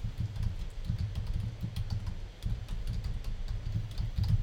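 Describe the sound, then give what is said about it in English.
Computer keyboard typing as a web address is entered: many light, quick key clicks in an uneven rhythm, faint over a steady low hum, with no voices. “Let's see if I can type it in here.”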